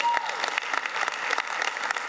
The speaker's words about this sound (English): Someone started to clap, and I think they should lead that.